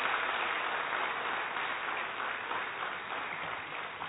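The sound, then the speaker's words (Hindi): Audience applause for a woman after her poetry recitation: a dense, continuous patter of many hands clapping at an even, steady level throughout, with no single voice standing out. “एक बार जोरदार तालियां प्रशांति बहन जी के लिए।”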